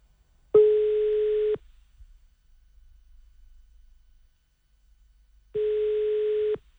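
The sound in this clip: An unanswered telephone call gives off a ringback tone: two steady, buzzing one-second tones separated by a long gap of near-silence with faint low rumble.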